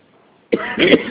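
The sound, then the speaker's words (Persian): A short, hoarse cough from a person who is feeling unwell: a sharp burst followed by a rougher, raspy stretch, loud against near silence. “این مقداری وضعیت مزاجیم خوب نیست، اگه سرفه میکنم یا ببخشید”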